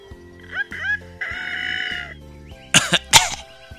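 A person imitates a rooster crowing with a drawn-out, strained, nasal crow among short voiced sounds. A few harsh, cough-like bursts follow near the end.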